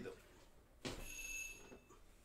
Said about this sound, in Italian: Stanno suonando eh, alla porta. Solo un secondo.